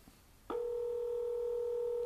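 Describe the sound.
An incoming telephone call tone: a steady electronic tone starts abruptly after a short near-silence and holds unbroken at an even level to the end.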